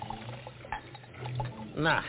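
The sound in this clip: Liquid poured into an eye-soaking solution to strengthen it: a short, gurgling pour near the end over a busy, muffled background.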